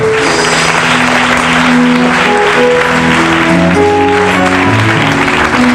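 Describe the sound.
Church audience in Côte d'Ivoire applauding God: loud, continuous crowd clapping over sustained musical tones that keep changing notes.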